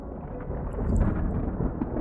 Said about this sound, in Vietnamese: Bỗng nhiên một tiếng sét vang lên giữa bầu trời đêm tĩnh mịch, khiến hắn giật mình rồi vội bỏ chạy.